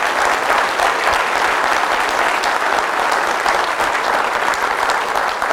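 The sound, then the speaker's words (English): An audience claps their hands in praise during a church service, a loud, dense and continuous wash of many hands that holds steady from start to finish. “Give Jesus a good hand clap of praise”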